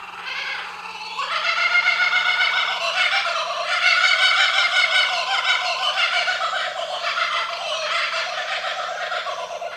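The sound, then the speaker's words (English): Kookaburras calling around a house: a loud, continuous cackling chorus of rapid, rhythmic, rising-and-falling hoots that starts softer and swells after the first second, then carries on unbroken to the end with no talking. “Those are kookaburras. They live all around my house, and they usually get going with that at about 4 in the morning.”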